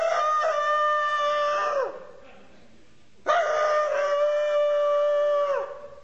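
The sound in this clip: A voice imitating a rooster crowing in two long, drawn-out calls, each with a falling tail, separated by a short pause.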